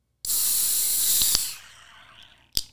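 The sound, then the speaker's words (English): A nitro beer can cracks open with a sudden loud, bright hiss that holds for over a second and then fades. A couple of small clicks sound within it, and a sharp metallic tap comes near the end. “These cans sound a little terrifying when they're open, so I'm just going to crack it up here.”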